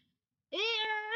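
A cat meows once, a single loud, sustained, tonal cry that rises slightly at the end after a moment of silence.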